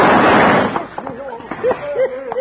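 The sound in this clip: Gunfire in a radio western shootout: a loud, dense burst of shots fills the first moment, then fades as men's voices carry on.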